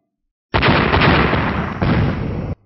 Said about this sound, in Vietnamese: Ba tiếng nổ vang lên